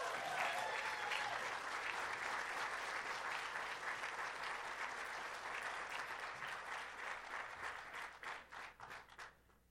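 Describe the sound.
A church audience at 12th Street Baptist applauds to welcome a speaker, with a sustained wash of clapping that thins toward the end into scattered individual claps.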